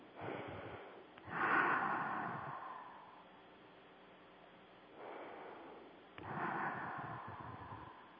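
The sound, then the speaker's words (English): Two deep breaths from someone out of breath, each a soft rush of air lasting about a second. They are faint and heard alone, without speech. “Couple of deep breaths. I'm out of breath. I must have been talking very fast.”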